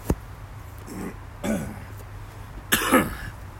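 Coughing after breathing in a bug while sitting in a portable disposable hot tub: a few harsh, throaty coughs and a throat-clearing spread out in short bursts, the last pair loudest.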